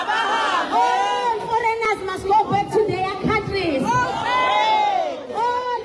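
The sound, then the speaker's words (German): Crowd of protesters marching through the streets of Durban, South Africa, at an anti-foreigner rally, chanting and shouting in loud massed voices that swell and dip continuously throughout. “Hunderte Demonstranten ziehen durch die Straßen von Durban, halten Schilder hoch, auf denen steht, kommt und holt eure Leute ab. Immer wieder wird der Ruf laut, aber Hambe, alle Ausländer müssen gehen.”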